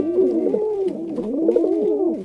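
Pigeon cooing: two loud, rolling throaty coo phrases, each a soft low warble that dips and wavers in pitch, heard alone and close with no other sounds.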